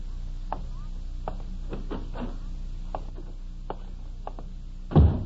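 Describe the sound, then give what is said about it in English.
Heavy footsteps on a porch: a series of dull, irregular thuds over a low steady hum, ending with one louder, deeper thump. “Mary has put supper in the warming oven while waiting for the sound of steps on the porch. Tonight, the steps are heavier than usual.”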